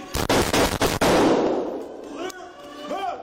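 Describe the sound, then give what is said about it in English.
Gunfire from a shooter firing out a window at arriving police: a rapid burst of loud, sharp cracks with a thick noisy wash that trails off into a duller rumble, then faint tonal sounds near the end. “They hear gunfire. You can hear it's getting louder because they're getting closer.”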